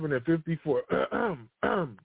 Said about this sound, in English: I'm clearing my throat for a reason.